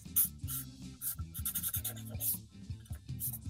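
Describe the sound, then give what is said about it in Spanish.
Drawing with a marker pen on paper, sketching a cartoon figure: a series of short, scratchy, squeaking strokes come in quick irregular bursts, fairly faint, with pauses between strokes. “¿Lo vas a dibujar? Sí, lo está dibujando.”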